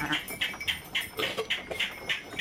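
A flock of sheep being herded by shepherds on a transhumance route, heard as many short, bright, regularly repeating bursts over a quiet background.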